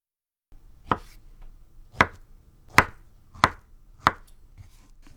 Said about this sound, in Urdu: ان 1/2 ٹکڑوں کو لمبائی میں کاٹ کر ہر ٹکڑے کے آر پار چھری چلاتے ہوئے 1 سینٹی میٹر کے چھوٹے ٹکڑے کاٹ لیجیے۔